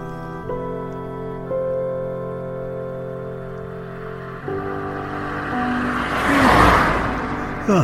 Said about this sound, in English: Blue, small BMW, diesel, maybe a 3 Series.